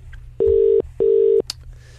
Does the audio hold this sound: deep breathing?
no